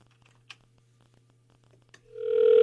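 Ring signal of a phone call placed to a landline: a few faint clicks in near silence, then a steady ringing tone with buzzy overtones swells up and holds to the end.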